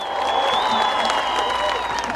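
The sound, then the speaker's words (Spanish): A stage audience applauding, with steady dense clapping and cheering voices carried over it throughout. “aplauso para ustedes.”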